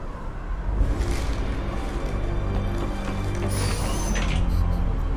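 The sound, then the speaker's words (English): An elevator mechanism moving in a video game cutscene gives a dense, continuous mechanical whirring and grinding that holds steady and fairly loud throughout. “Liara and Edie open up a different elevator”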